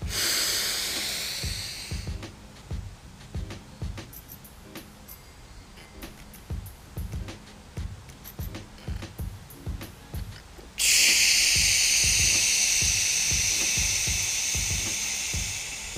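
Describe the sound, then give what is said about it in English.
Slow, deep breathing from a breathing exercise, inhaling and exhaling: a soft airy breath opens, a steady low beat pulses underneath, then a long, loud rushing breath carries on to the end. “let's take some deep breaths. 5 seconds in, hold for five, out for five.”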